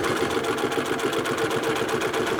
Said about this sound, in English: He's doing the first step of the sewing process. So he's sewing the pieces of leather together.